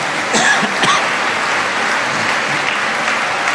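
An audience claps during a church prayer service, a steady, even patter of many hands that stays at a constant level throughout.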